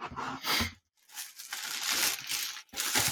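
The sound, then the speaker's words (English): Crinkling paper and tearing wrap as a gift is unwrapped from a shoebox-like package. Several bursts of crisp rustling come with a brief silent pause partway through. “He unwraps it. He's it's in a shoebox like package.”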